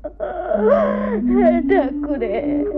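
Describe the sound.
A woman crying with whimpering, wailing sobs whose voice wavers up and down in pitch. The sobs are broken by short catches of breath and sound over a steady held note.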